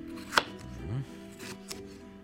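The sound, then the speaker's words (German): Knife strikes on a cutting board as vegetables are chopped into small pieces, a couple of sharp, crisp strokes, the first loudest, with a low steady hum and faint clatter between them. “Das sind kleine Stücke schneiden.”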